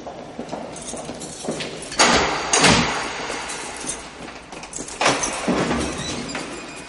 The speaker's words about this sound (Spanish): El soldado abre una celda.